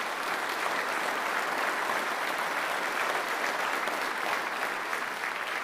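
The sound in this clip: Steady applause welcomes a guest from Ukraine in the church at Hebron, Ballymoney, Northern Ireland. The clapping is even and sustained from start to finish, with no break and no voices standing out.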